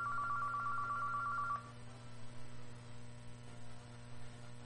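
A telephone rings once with a quiet, steady electronic tone that lasts about a second and a half and then cuts off, leaving a low constant mains hum.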